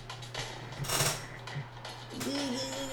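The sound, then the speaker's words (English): Dice rattle and clatter across a table during a tabletop role-playing game, a quick burst of sharp clicking knocks that stops, followed by a brief voice. “Someone else's dice? Yeah. That's true. It's too late. You've touched it. You're already rolling.”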